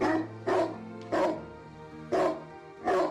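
A dog barks four times in short, evenly spaced bursts, each bark sharp and fairly loud, over a steady low tonal hum.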